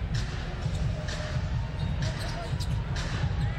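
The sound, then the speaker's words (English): Basketball dribbled on court during a professional NBA game between Milwaukee and Toronto, a steady run of low thumping bounces under constant crowd noise and talk. “Temple on the dribble against Green.”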